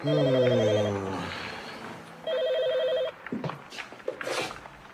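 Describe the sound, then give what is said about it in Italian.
A telephone rings at home late at night, two bursts of a warbling electronic tone separated by a short pause, loud and clear. “quando squillò il telefono”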